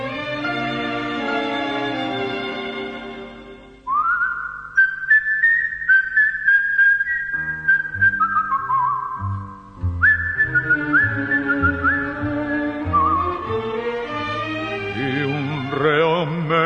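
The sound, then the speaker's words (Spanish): A person whistles a song, a brooding prisoner's tune: a bright, clear melody of held and sliding notes that enters after a few seconds of instrumental backing and carries on over it. “un reo meditabundo va silbando esta canción”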